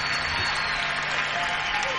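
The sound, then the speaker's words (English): Audience applause at the end of a live jazz-blues recording: dense, steady clapping mixed with crowd noise that holds at an even level throughout. “And, yeah, I should have just left the applause going.”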